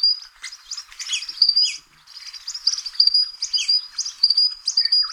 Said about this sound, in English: Now, the Eastern Spine Bill that we just heard about, this is what the Eastern Spine Bill sounds like.